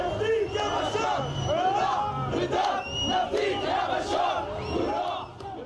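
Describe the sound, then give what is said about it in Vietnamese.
Crowd celebrating in government-held western Aleppo, Syria: many voices shout and chant together in a dense, loud, continuous mass. “Những cảnh tượng vui mừng diễn ra khi mọi người ăn mừng trước tin tức lực lượng chính phủ của Tổng thống Syria Bashar al-Assad đang trên bờ vực chiến thắng tại đông bộ Aleppo.”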